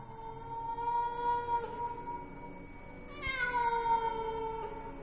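A cat meows from afar in two long, drawn-out wails, faint and sustained over a low background hum, with no talking.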